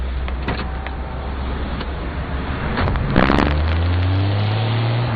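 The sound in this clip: A car pulls up with a steady low engine hum, then an electric power window whirs with a rising motor whine through the second half. Faint clicks sit over the hum, and no voices are heard.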